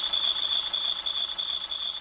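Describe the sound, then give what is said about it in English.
A van's ailing motor squeals at a gas station as a mechanic checks it. A steady, piercing high-pitched whine holds unbroken over a rough idling rumble for the whole clip. “we've got a mechanic here trying to ascertain what's causing the squealing in the motor. Can you hear that?”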